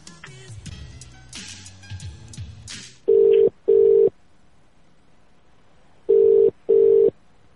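A phone call is placed and rings out: after some soft clicks and rustling, two pairs of steady mid-pitched ringing beeps sound, separated by a silent pause.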